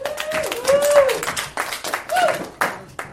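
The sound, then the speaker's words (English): Audience applause, a patter of many hand claps with sharp bursts running under a person speaking. “Everyone, please give a round of applause to Jake Hendrick.”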